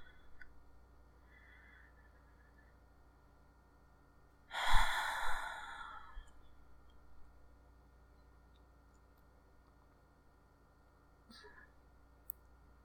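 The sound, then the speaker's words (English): A single long, soft breath out, close to a sigh, rises from near silence and fades slowly. A much fainter breath follows later, and the rest is quiet. “just try to breathe with me for a little bit, okay? In and out.”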